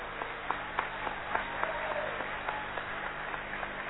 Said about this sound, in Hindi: आपकी तालियां रुक जाएंगी तो वो वापस चले जाएंगे